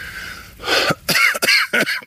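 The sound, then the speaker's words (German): Coughing from someone with a head cold: four rough, harsh bursts in quick succession with short gaps between them. Each burst carries a raspy, partly voiced edge. “es fängt auch noch der Husten an. Ich habe mich verkühlt. Ja, dieser Husten.”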